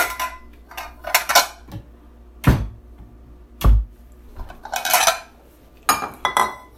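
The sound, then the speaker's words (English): Big wide bowls and dishes are taken out and handled, with several loud, irregular clatters and knocks of crockery separated by quieter gaps, and no talking. “I'm actually getting bowls, big wide bowls.”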